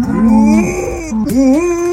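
Female dog mooing like a cow instead of barking: two drawn-out, low, harmonic moaning calls. The first is steady and fades out. The second dips briefly, then swells and holds, loud and alone.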